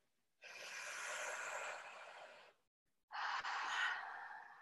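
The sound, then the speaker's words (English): A deep breath, heard as two long, soft, airy breaths of about two seconds each, separated by a brief silent pause, with nothing else in the background. “So just take a deep breath.”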